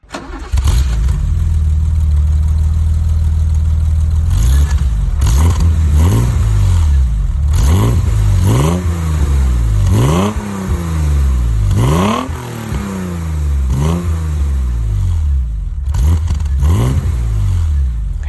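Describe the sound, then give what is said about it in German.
A BMW 333i E30 inline six-cylinder engine starts and settles into a loud, deep idle, then gets revved in repeated sharp blips. Each blip climbs in pitch and drops back toward idle, with brief pauses between them. “Schöner, rein Sechszylinder. Klassisch, würde ich sagen. Klassischer Sound. Und es handelt sich um den BMW 333i. Der Baureihe E30.”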